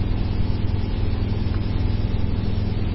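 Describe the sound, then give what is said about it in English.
Steady engine drone of an express boat motoring on the water, a continuous, fairly loud low hum with no clear rise or fall and no voices. “The express boat coming up.”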